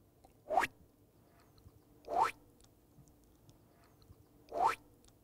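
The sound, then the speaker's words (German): Three springy, boing-like jump effects made for a stop-motion film with bread rolls as its cast, each a quick upward-sweeping twang, evenly spaced and standing alone against near silence. “Zum Beispiel die passenden Geräusche. Ganz besonders wichtig, der Sprung.”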